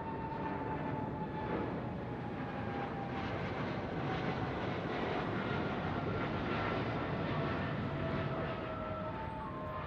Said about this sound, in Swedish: efter säkerhetsgenomgången klockan 18.25 lyfter flygplanet, som också kallas Clipper Made of the Seas, och påbörjar sin färd över Atlanten mot Detroit via New York.